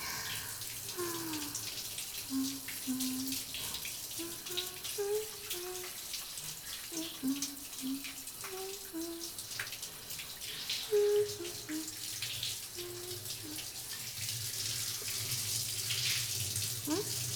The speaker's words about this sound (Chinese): 温度还可以吗？先仔细冲水。让身体暖起来。